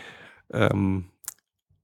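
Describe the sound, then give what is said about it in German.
A computer mouse clicks once on an online shop page. The single short, sharp click comes right after a brief voiced sound from a person. “ich wiederum klicke oben auf Mac, dann Mac Pro und kaufen”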